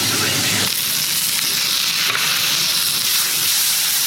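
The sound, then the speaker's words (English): A burger patty sizzles loudly in a hot pan as it is cooked and flipped, a dense, continuous frying hiss with no voices. “Burger flip. Time to put a bit more crust on the other side.”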